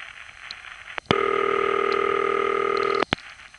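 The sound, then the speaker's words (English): A telephone ringing tone from a city crossbar exchange, heard down the line as a single steady, buzzy ring lasting about two seconds, with faint line hiss and a few clicks before and after. “And as you can hear, that is more of a typical city ring than what we got on HA7.”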